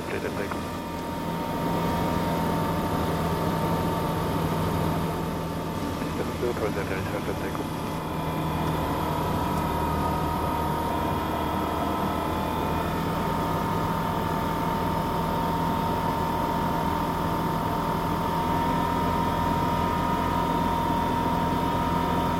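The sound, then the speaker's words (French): Airplane engine droning through the final approach to a runway, just after the turn to line up at 500 feet; a loud, constant hum with steady tonal lines and no clear change in pitch. “Allez, les derniers mètres, la piste se rapproche et... Et on entend que le moteur...”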